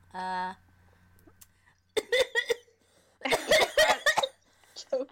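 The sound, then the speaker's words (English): A person coughs after choking on inhaled saliva. Short, harsh bursts come in a brief cluster and then a longer, louder run, with one more faint burst near the end. “No, I just inhaled. I inhaled my own spit. It went right down my throat.”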